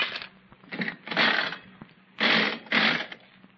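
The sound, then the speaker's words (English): Nickel slot machines are played, giving several short bursts of mechanical whirring and clattering with quiet pauses between them. “Oh, I don't think it's possible to win on these slot machines.”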